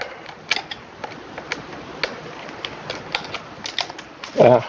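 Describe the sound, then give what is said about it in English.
A screw being unscrewed and removed, the second-to-last of six, giving many small, irregular clicks and ticks of the turning screw over a faint background. “So this is the second to last screw to come out.”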